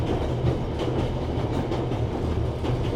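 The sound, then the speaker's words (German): A train rolling along the rails toward Berlin, a loud, steady low rumble with a faint, repeating clickety-clack rhythm running through it. “Nun saß er wieder im Zug und fuhr zurück nach Berlin.”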